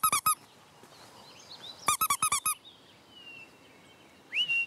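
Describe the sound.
Imitated mouse squeaks made by a person to lure a little owl that escaped from a flight show: sharp, high squeaking bursts in two rapid clusters over a quiet outdoor background.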